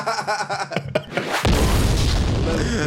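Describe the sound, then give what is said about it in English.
A DJ bomb drop effect hits with a sudden booming blast that swells into a loud, noisy roar lasting to the end, after a stretch where voices talk. “Drop a bomb. Drop another one. One of Clue's bombs.”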